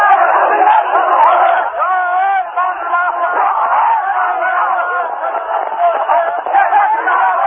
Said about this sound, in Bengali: রাস্তায় নামার সঙ্গে সঙ্গে জরুরি অবস্থা উপেক্ষা করে কয়েক হাজার দলীয় নেতাকর্মী সমর্থক তাকে নানা স্লোগান দিয়ে স্বাগত জানান।